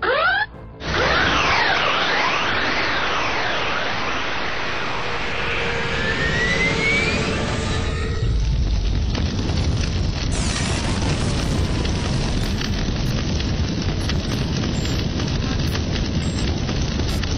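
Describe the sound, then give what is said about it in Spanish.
Roaring rush of a spaceship plunging through a portal and catching fire: loud sweeping whooshes and swirling tones give way to a sustained, crackling, fiery roar that holds to the end. “Mi nave atraviesa un portal y caigo a toda velocidad a través de él mientras incendia.”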